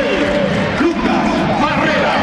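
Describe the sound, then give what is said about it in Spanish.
Stadium crowd applauding and cheering a football player as the starting lineup is named before a match, a dense, steady roar of clapping and voices throughout. “Y ahí aplauden a Charles Aránguiz, hasta el momento el más aplaudido.”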